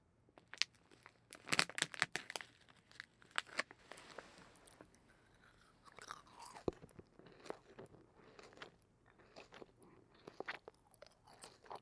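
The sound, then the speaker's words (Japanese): Gummy candy chewed up close, with many soft, wet crunches and squishy bites in an irregular rhythm, some sharper bursts standing out against quiet gaps. “ねえねえ、グミって食べてるときどんな音になるんだろうね。気になるし、ちょっと近くで聞いてみてよ。”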